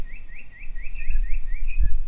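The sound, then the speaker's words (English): Birds chirp in a Richardson, Texas neighborhood in spring: many repeated, bright chirps in a steady rhythm, fairly faint, over a low background rumble. “but with birds too, like these in a Richardson neighborhood. Their chirping becomes nature's springtime symphony.”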